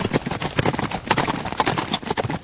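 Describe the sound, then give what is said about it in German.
Hoofbeats of horses galloping at a furious pace as three riders race back into a forest, a fast, loud, continuous rhythm of clopping strikes with no talk. “Zu dritt machten sie sich im rasenden Galopp auf zurück in den Wald.”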